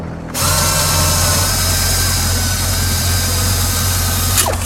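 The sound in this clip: An engine, just repaired, catches abruptly and settles into a loud, steady mechanical running drone with a constant whining tone, sustained to the end.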